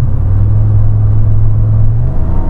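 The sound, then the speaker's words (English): A pickup truck engine runs at partial throttle while the truck barely moves, giving a loud, steady low drone and rumble with no talk. “That was like 50% throttle change, and the truck was barely moving.”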